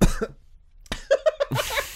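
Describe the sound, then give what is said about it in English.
Coughing from a person with Pringles crisps stuck in the throat: a few sharp, harsh coughs in quick succession, loud and without speech, then a burst of rougher breathy noise. “For you special listeners there tonight, a cough in your ear. Oh, I'm so sorry, there's Pringles stuck in my throat.”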